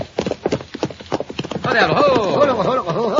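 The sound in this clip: Horse hooves clip-clop in a quick, steady rhythm as the horse pulls a buckboard wagon, then voices start talking over the hoofbeats.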